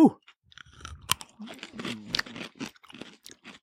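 Crunchy chewing of a spicy, sweet pickle spear: many moist bites and crunches in an irregular rhythm over several seconds, with no talking.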